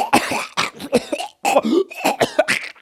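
Several harsh, raspy coughs and throat clearing in close succession, loud and dry, with a short gap partway through.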